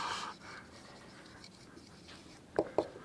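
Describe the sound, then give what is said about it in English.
Writing something down by hand: soft scratchy pen strokes, faint and intermittent, followed near the end by two sharper taps. “Let me write this down before I screw it up anymore.”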